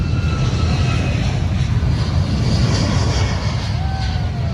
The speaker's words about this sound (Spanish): Así sonaba ese primer despegue desde Boeing Field, uno de los aeropuertos que la compañía tiene en el estado de Washington, en Estados Unidos.